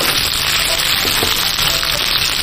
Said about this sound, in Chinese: 好，这边煎好了以后，咱们给它翻个个儿。 哦， 哎，翻个面以后再进行另外一面煎制。